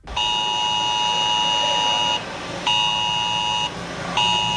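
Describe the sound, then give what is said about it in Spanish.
Emergency alert in Alcuéscar during a forest fire drill: a loud, steady electronic tone sounds in three bursts, the first about two seconds long, separated by short gaps, with the last one cut off. “Suena esa alerta en Alcuéscar.”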